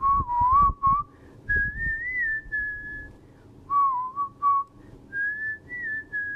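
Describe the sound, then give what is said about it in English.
A whistled melody opens a song: a clear, lively tune in two phrases separated by a short pause, each phrase bending up and down in pitch. The whistling is alone, with no voices. “which is just a really fun song to work to. It starts out with a little whistle motif of,”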